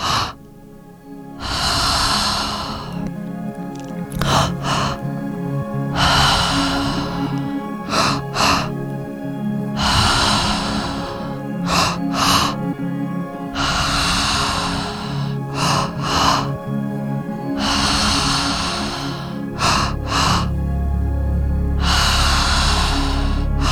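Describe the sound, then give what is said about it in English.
Deep guided breathing during a breathwork session: many long, loud, airy breaths rise and fall in a steady, even rhythm, with short sharp catches between some of them. “Expanding the diaphragm, expanding the ribcage as much as you can. Nice deep breaths.”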